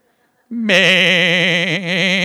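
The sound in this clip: A man's voice imitates a sheep bleating, a loud, drawn-out nasal 'meh' with a quavering, wobbling tone that briefly dips before carrying on.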